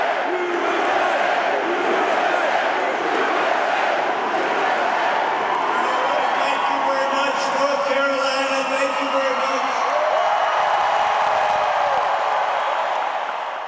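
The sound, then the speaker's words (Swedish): A huge crowd cheers in a large basketball arena in Charlotte as a political rally begins: a loud, continuous roar of voices with shouts and whoops that holds steady throughout. “senare samma dag befann vi oss i en stor basketarena i Charlotte där Donald Trump kom in till ett enormt jubel.”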